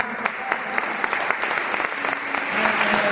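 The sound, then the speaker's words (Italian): An audience at an Italian concert applauds an absent guitarist. The clapping is dense and continuous, with a few sharper claps standing out, and it swells a little louder toward the end. “a distanza dobbiamo assolutamente salutare, gli mandiamo un applauso”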